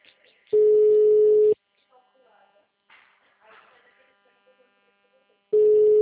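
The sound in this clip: Telephone tones play while a call is placed on a phone line: a loud, steady, single-pitched tone lasting about a second, a long stretch of faint muffled sounds, then the same steady tone starting again at the end.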